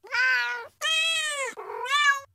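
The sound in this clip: A cat meows three times, each call drawn-out, clear and tonal. The meows are loud and stand alone against a quiet background.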